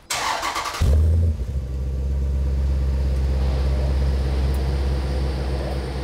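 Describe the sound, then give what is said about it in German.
A car engine bursts into life after a short churning crank, then settles into a loud, deep, steady rumble that holds evenly to the end. “Gib mal Gas. Ganz anderer Klang.”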